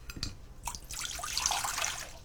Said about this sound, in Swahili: Kisha viweke kwenye sufuria pamoja na maji kikombe kimoja, sawa na mililita 200.